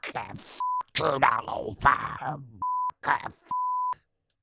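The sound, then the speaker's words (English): Steady, high censor beeps cut over a man's swearing: three flat, identical tones interrupt stretches of speech, each lasting a fraction of a second and clearly louder and purer than the voice around them. “can you beep those out? I swore too much.”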